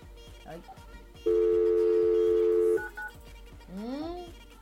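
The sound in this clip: Telephone ringing tone while calling someone, a single steady, buzzy tone lasting about a second and a half over a rhythmic backing beat, with a voice audible around it.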